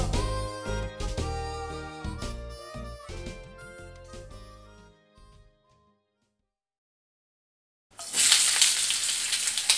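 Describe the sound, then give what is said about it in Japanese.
Food cooking with a loud, steady hissing sizzle that starts abruptly after a musical passage fades out into a few seconds of silence. “料理を作る音はいい音だね。”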